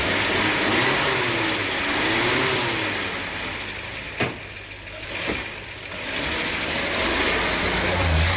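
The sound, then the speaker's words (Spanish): Engine of an old, battered cream Chevrolet 400 running, a continuous rumbling drone with a wavering tone early on, broken by two sharp knocks midway before the steady noise resumes. “Es el turno de un Chevrolet 400 color crema, destartalado, pero con el motor intacto.”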